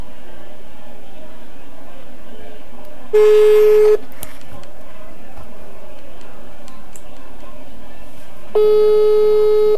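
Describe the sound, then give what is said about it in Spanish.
Telephone line tones while placing a call: two steady, long, mid-pitched beeps separated by several seconds, standing out over a constant noisy background. “vamos a llamar a Willy vamos a hablar con él”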